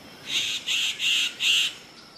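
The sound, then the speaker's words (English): Rhythmic wing-feather clicks from a displaying superb bird-of-paradise: four evenly spaced, buzzy bursts, each lasting a fraction of a second, fairly loud and bright, with short gaps of quiet between them. “The rhythmic clicks are made by flicking the wing feathers.”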